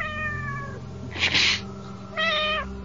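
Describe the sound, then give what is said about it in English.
A cat meows twice, each a drawn-out, tonal call, with a short noisy burst between them. No voices accompany it. “No, cat meow.”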